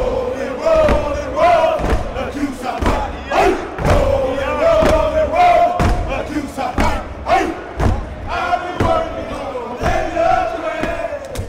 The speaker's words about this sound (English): is a step show. It's got clapping. Stomping and chanting.